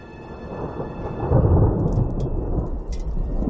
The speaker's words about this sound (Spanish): Comienza a llover de forma torrencial.